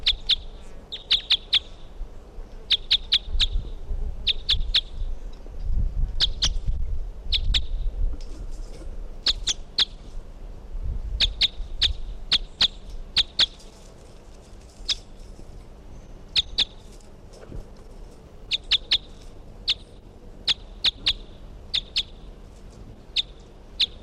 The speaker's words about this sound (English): Bird 363.